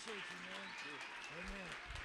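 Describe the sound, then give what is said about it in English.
An audience at a church service in Texas applauds to welcome a pastor: faint, continuous clapping with raised voices calling out over it. “Let's let Pastor Richard Marshall know we love him tonight as he comes. Let's give him a big hand. Give him a big Texas welcome.”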